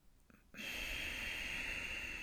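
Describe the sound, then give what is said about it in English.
A deep inhale drawn in through the nose, starting after a brief quiet moment and continuing as one steady, soft airy hiss to the end. “take a nice deep inhale, just in through the nose, as deep as you can”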